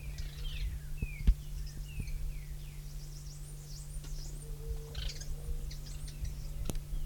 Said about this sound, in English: three birds present. Little twittering notes.